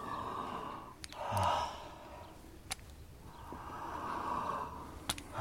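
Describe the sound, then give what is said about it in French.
Heavy breathing through an open mouth from a patient leaning forward during a medical examination: a few long, airy, noisy breaths with a sharper intake in between, loud and without talk. “Respirez fort, la bouche ouverte.”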